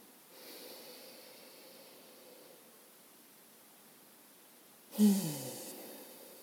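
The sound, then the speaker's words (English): Breathing is faint: a long, soft, drawn-in breath, a quiet pause, then one sharp, louder exhale that quickly fades. “Let's take a deep breath.”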